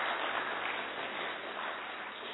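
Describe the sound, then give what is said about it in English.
An audience at a spiritual gathering claps together, giving a muffled, dull wash of applause with no distinct individual claps, fairly faint and even throughout. “So I clap for them, please”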